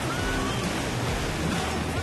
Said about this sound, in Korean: 파도도 장난 아닌데요.